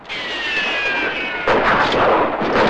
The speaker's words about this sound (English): Taking fire from all angles, Vin takes a hit to the leg, but is able to fight on.